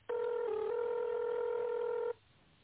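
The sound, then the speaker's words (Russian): A telephone keypad tone entered at an automated phone menu asking for an extension number, sounding as one sustained, steady electronic beep of about two seconds. It starts and stops abruptly, with no voices. “Введите добавочный номер или дождитесь ответа оператора.”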